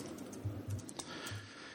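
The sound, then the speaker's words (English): Computer keyboard typing: a short burst of a few soft key clicks at an uneven pace, heard alone. “if only I could type.”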